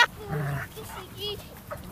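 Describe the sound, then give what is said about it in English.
An Alaskan Malamute dog vocalizing with a few short, wavering whines and talk-like moans, rising and falling in pitch over about two seconds. “That's not a husky. It's got to be an Alaskan Malamute.”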